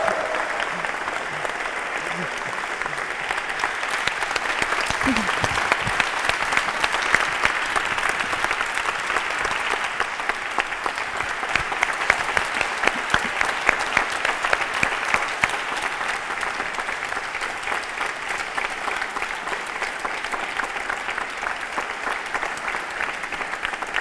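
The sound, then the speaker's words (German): Thunderous applause from an audience: dense, sustained clapping that stays loud and steady for the whole stretch, with voices mixed into the crowd noise. “Einen donnernden Applaus.”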